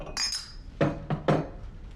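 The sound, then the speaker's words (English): A glass of scotch clinks in a study: one ringing high clink, then three short knocking clatters, fairly faint and with no voices. “In his study, the middle-aged man pours himself a glass of scotch.”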